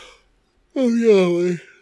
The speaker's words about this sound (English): sorry, I don't mean to yawn so much.